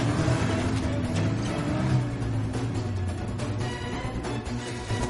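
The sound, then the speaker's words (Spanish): An SUV engine rumbles steadily as the vehicle drives off-road across a field, a loud, continuous noise with no distinct separate events. “El todoterreno circula por el campo.”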